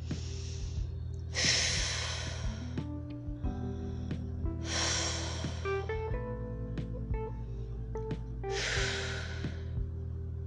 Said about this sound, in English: I'm going to take a few breaths